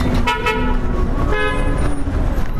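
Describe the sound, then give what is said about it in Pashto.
Heavy traffic on the Kabul–Kandahar highway near Ghazni: a steady, loud roar of passing vehicles, broken by a few sharp car and truck horn toots. “د کابل کندهار پر لویه لار غزنی ښار ته څیرمه په شاباس سیمه کې د موټرانو ګڼه ګوڼه.”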